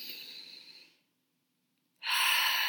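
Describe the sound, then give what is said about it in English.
A deep breath in and out: two long, airy breaths separated by a second of silence, the second one louder. “we're just going to take a nice deep breath”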